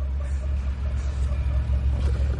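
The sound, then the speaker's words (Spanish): Low engine rumble of a taxi driving through an underground car park, a steady, deep droning hum held throughout with no voices. “El taxi pasa cerca de ellos.”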